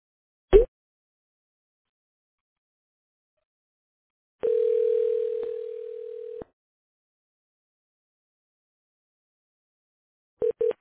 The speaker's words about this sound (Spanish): Se colgó la llamada. ¿Qué pasó?